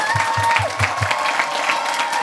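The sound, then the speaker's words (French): Audience applause at a rural dance event: dense, steady clapping that runs throughout at an even, fairly loud level. “On applaudit Monsieur Tchèque”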